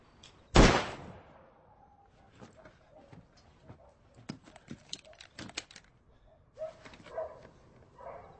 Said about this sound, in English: That sure is some silencer. Yes, what it did was augment the sound rather than dampen it.